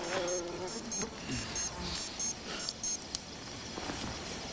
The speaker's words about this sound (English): He switches off his wristwatch alarm.